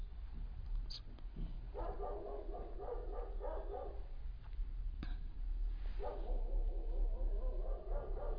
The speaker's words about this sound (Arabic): سامعين صوت الكلب ولا مش سامعين؟ الكلب ده بقى ما بيشتغلش تقريبا إلا لما نيجي ندي درس أو نسجل محاضرة